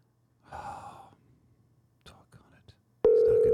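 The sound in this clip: A telephone ringback tone sounds loud and steady for a call being placed, starting abruptly near the end after soft breaths and a sigh.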